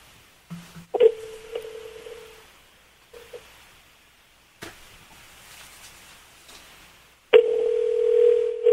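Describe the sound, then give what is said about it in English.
Telephone tones from a dialed toll-free 800 number: a brief low tone, then a steady tone lasting over a second, a few short blips and clicks, and finally a loud, sustained tone. “I've been calling some of the 800 numbers that, you know, you used to dial back in the 90s. So sometimes this is what one of them does.”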